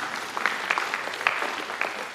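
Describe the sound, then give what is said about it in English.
Congregation clapping during a sermon, a fairly quiet spatter of applause with a few sharper individual claps poking out above the steady patter. “Oh, you can clap for that, sweetheart.”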